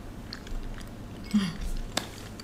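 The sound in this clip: Soft, faint chewing of springy warabi mochi topped with Kyoto black vinegar kinako kneaded with Tanegashima brown sugar, a few moist mouth sounds with one brief sharper click, and no talk.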